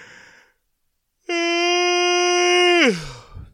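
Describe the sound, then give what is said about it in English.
A loud, drawn-out yawn: a strong, steady voiced tone held for about a second and a half, then sliding down in pitch as it trails off, with only a faint breath before it. “That's a yawn for me. I try to get everything in it that I can.”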